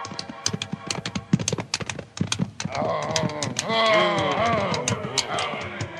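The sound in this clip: Horses' hooves clip-clop as a group of riders arrive at a ranch, with many brisk, uneven hoof beats. Partway through, the beats give way to a sustained, wavering tonal moaning sound that continues to the end.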